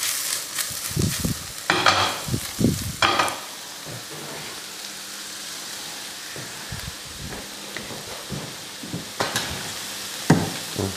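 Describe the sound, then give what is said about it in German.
Bacon and button mushrooms sizzle in a frying pan, a steady crackling hiss broken by a few louder scraping and clattering bursts as the mixture is stirred. “So, wir machen jetzt den Speck dazu. Speck und die Champignons oben drauf. Und die Champignons dann mal auch gleich dazu, genau. Jetzt sollen wir das Ganze ein wenig durchschwitzen.”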